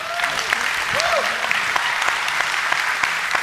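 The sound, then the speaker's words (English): A church service audience claps to welcome guests onto the stage: steady, dense applause throughout, with a few brief voices and cheers mixed in early. “will you give me a hand and welcome them?”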